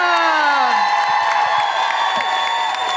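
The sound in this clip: Audience cheering and clapping welcome a comedian onto a stage: loud whoops and raised voices ride over steady claps, with a shout that falls in pitch at the start.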